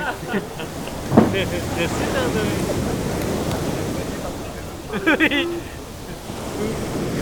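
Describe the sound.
Underwater water sounds in a video game make a steady, murky wash of rushing, bubbling noise. Brief brighter gurgles stand out, and a voice talks over it at times.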